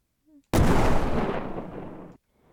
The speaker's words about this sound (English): Firing nuclear bomb at Burrito's base.